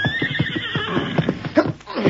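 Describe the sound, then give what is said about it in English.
A horse neighs in a long, loud, shrill whinny that wavers as it fades, with lower snorting and scuffing underneath, heard alone without voices. “Fine horse you got there”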